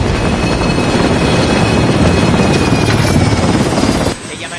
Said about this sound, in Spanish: El helicóptero se posa sobre la cubierta.